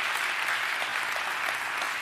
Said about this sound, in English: I want you to give the Lord a hand clap of praise wherever you are right now if God has been good to you